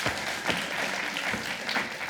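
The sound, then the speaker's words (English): An audience claps for children who were good listeners, a dense, steady patter of applause that holds evenly throughout. “Can we give them a hand for being such good listeners?”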